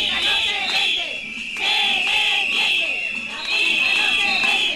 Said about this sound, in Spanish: Gritos, abucheos y lemas de la escuela pública no se vende